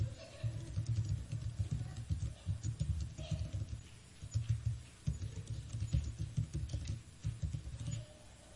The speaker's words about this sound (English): Keep speaking here while I type.